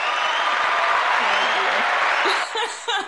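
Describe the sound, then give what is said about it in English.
A recorded applause sound effect: dense, steady clapping holds for about two and a half seconds, then cuts off as voices and a short chuckle follow. “Actually, I do think I have an applause effect on here. It's a new thing.”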